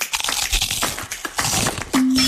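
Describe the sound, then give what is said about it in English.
A chip in a car windshield cracks through the glass with a dense run of gritty, crunching snaps lasting about two seconds. A steady low hum follows at the end. “That chip turned into a crack? No worries. Better call Seminole. We'll fix your glass faster than you can say road trip.”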